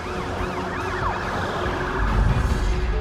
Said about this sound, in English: The police and FBI convoy drives off the bridge.